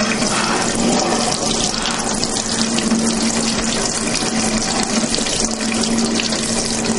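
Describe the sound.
Water runs steadily from a tap into a sink as someone wets their neck, a continuous loud rush with no pauses.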